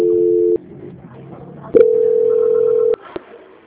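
Steady telephone tones sound on a line while a bank call is transferred: one mid-pitched tone holds for about half a second, then after a pause a second, longer tone lasts just over a second, followed by a soft click.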